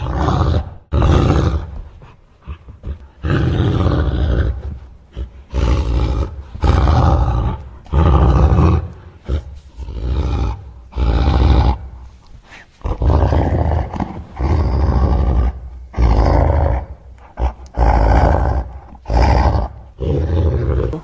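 Angry wolf growling and roaring as it keeps blowing in vain at a house, in many loud, rough bursts of about a second each, separated by short pauses and heard alone without talk.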